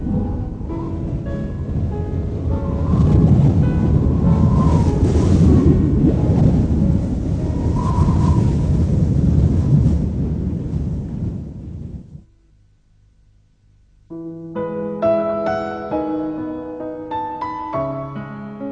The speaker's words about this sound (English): The penguins huddle together for protection from the freezing wind.